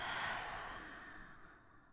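A deep exhale through the nose during a guided breathing exercise: soft, airy breath noise, loudest at the start and fading steadily over two seconds, with no voice.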